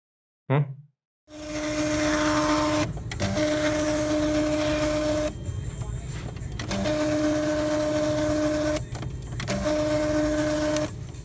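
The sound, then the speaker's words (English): A voice imitates a credit card receipt printer with a steady, buzzing mechanical whir and a sustained hum. It runs in several long stretches split by brief breaks, after a short sound at the very start. “How about a receipt printer? You know those credit card machines?”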